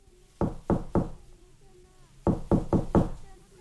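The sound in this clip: Knocking on the door of a wooden house: three sharp, evenly spaced knocks, a pause, then four more quick knocks.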